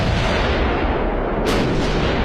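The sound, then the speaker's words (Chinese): An explosion outside a packed stadium during a France–Germany international friendly football match. A sharp burst cuts through a dense, steady, roaring wall of noise that stays loud throughout. “两声巨大的爆炸声震惊了当时正在法兰西大球场内进行国家队友谊赛的法德2国球员”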